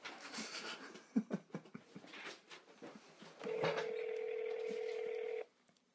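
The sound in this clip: A telephone number being dialed, with a run of short key taps and beeps followed by a steady sustained tone lasting about two seconds that cuts off abruptly.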